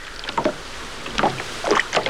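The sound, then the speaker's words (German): Soft water lapping and splashing against a boat drifting with its engine off, as a storm along the coast dies down. A few gentle, irregular splashes rise briefly above a quiet, low background. “stellte Ashley den Motor ab und ließ das Boot treiben.”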